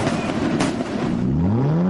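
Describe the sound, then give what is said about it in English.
A race car engine at a dirt track speedway roars loudly and continuously, its droning note climbing steadily in pitch as it revs toward the end. “Rev up your 4th of July weekend at the Coles County Speedway's Stars, Stripes, and Survivors Race, Friday and Saturday at Charleston Speedway. It's two nights of thrilling dirt track racing and fireworks”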